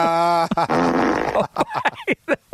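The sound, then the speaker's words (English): Comic fart sound effect dropped in as a gag: a loud, buzzy, flapping blast followed by a string of short sputtering bursts, heard alone without talk. “teed up his own fart drop there. That's the only reason he made that line.”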